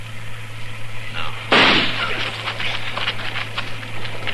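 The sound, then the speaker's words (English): A single gunshot fired at a tree cracks out as one loud, sharp burst with a short decaying tail over a steady low hum. “I'm going to flip a shot at the tree, Chester. Roll away as soon as I fire.”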